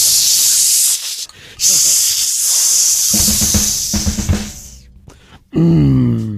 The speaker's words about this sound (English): Hello, tin opener. If I can get you on it. Opening time.